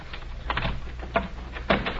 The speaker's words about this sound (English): Unlock the doc's door